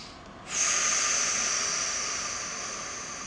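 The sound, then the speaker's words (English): Deep breath in and out during a meditation: one long, steady breathy hiss that starts abruptly and fades slowly, heard alone with no talk. “Take a deep breath.”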